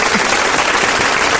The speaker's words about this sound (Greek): Αυτό θέλει χειροκρότημα, κυρίες και κύριοι.